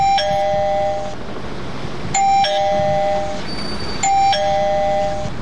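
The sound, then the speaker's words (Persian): An electric, battery-powered doorbell at a house door rings three times at even intervals, each a bright, high chime that rings out for about a second before fading. “صبر کو، زیاد زنگ نزن که بالتیش خلاص میشه.”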